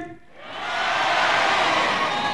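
Cheering and applause from a concert audience in Sabah: a dense crowd roar that swells after a brief dip at the start, then holds strong and steady to the end.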